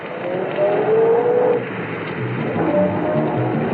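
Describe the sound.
A police officer's car pulls away and turns a corner. Its engine gives a steady, fairly loud rumble with a brief swell as it accelerates, then settles into an even drone.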